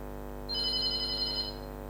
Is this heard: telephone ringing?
yes